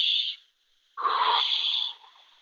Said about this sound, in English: I'm gonna take a breath and I'm just going to go,